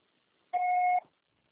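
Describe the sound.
A voicemail beep signals the start of message recording, a single steady electronic tone lasting about half a second, clean and alone against near silence.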